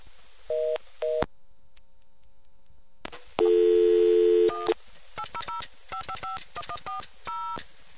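Touch-tone telephone dialing on a line that keeps rejecting the call: two short beeps, a pause, a longer steady tone, then a rapid run of many quick dialing tones in uneven rhythm.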